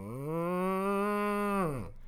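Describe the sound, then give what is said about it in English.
A person's voice imitates a cow's moo: one long, low, drawn-out call that holds steady and then drops away, fairly quiet. The imitation is of a large cow named Roquefort lifting its head at a window. “And she points out the window and you see the cow lifts its head and goes,”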